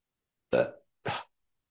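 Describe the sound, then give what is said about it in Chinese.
A person burps twice in a body-exercise practice session where burping is treated as expelling air. The first burp is slightly longer and fuller, and a short pause separates it from the second. Both are loud and stand alone against silence. “刚才我讲了，看我打嗝吧”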